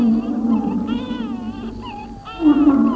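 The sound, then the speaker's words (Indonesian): A bear growls in a deep, drawn-out, moaning tone that wavers in pitch, continuous for about three seconds and swelling louder near the end. “Oh, ternyata sosok hitam yang sangat besar itu adalah seekor beruang.”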